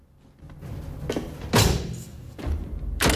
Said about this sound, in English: closes the hatch, locking him in.